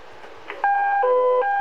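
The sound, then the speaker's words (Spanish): Electronic alert signal from a fire department dispatch centre's alarm system: a clear, steady tone steps down to a lower pitch, then returns to the first tone, loud and continuous after a faint lead-in. “lo que acaba de escuchar es la central de alarmas del Cuerpo de Bomberos indicándonos de una clave 1041.”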